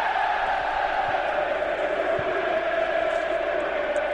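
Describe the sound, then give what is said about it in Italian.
Juventus fans sing in the stadium during a match against Monaco, a sustained massed chant of held, droning tones that stays loud and unbroken throughout. “Cantano i tifosi della Juventus.”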